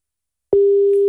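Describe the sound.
The ringing tone of an outgoing telephone call that goes unanswered. After half a second of silence, a single steady, pure, mid-pitched tone starts abruptly and holds loud and unbroken to the end.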